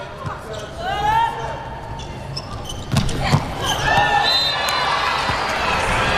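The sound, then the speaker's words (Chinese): Ball thuds as a player bounces and serves during a match. A couple of sharp impacts near the middle stand out over steady crowd noise and voices. “唐鑫来发球”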